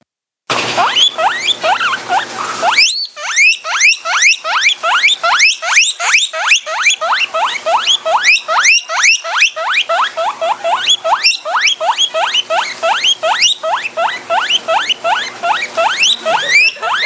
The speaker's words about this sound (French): Oui, c'est le cochon d'Inde.